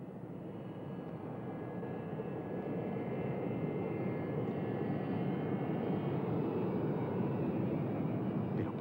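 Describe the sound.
Airplane taking off from a runway: a fairly faint, continuous engine roar that grows a little louder early on, then holds steady, with no talk.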